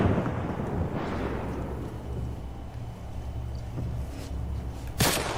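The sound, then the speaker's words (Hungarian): Scoped sniper rifle gunshots in a video game: a booming shot near the start decays into a long rumble, then a second sharp crack lands near the end, both over a continuous low background rumble. “Elég brutális egyébként, hogyha nem fejre célzok, hanem testre a távcsöves puskával úgy szakítja le a végtagokat, mint az állat.”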